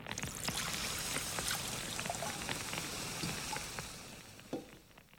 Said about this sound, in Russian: Сержант, ведро воды на солому, пожалуйста.